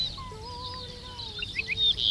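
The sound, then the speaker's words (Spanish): A lark (alondra) sings its Arricotí call: thin, high chirps and twittering notes over a faint low rumble, growing louder and busier toward the end. “Sí, dice Arricotí. Yo me quedo nubilada porque es que no veo solo la alondra.”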